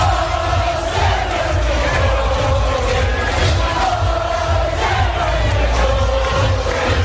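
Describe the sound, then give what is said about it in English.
A huge crowd at the Glastonbury Music Festival in 2018 chants and cheers for Labour leader Jeremy Corbyn. The loud, dense mass of voices carries a repeating sung chant that rises and falls over continuous roaring. “The height of Corbyn mania back in 2018, the then Labour leader cheered by tens and tens of thousands of revellers at the Glastonbury Music Festival”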